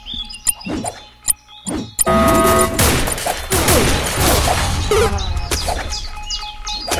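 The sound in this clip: Firecrackers and rockets exploding in a video game: a few sharp pops and clicks, then a loud, dense barrage of crackling blasts that continues to the end.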